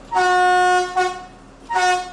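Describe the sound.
Harmonic horn blasts from a train signalling its departure at Quedlinburg: one long, loud toot, a brief second one, then a third mid-length blast after a short pause.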